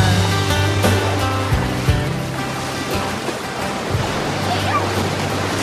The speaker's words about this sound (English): Ava runs back into the surf as Mary Jo, wearing a blue swimsuit and yellow sun hat, opens a bottle of beer. Ava rides in on the surf.